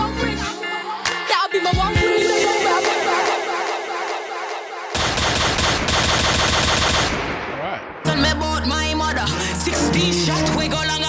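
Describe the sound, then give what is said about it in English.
Rapid bursts of gunfire sound effects run through a loud, dense hip-hop track, the shots rattling in quick repeated volleys over the beat. “16 shots.”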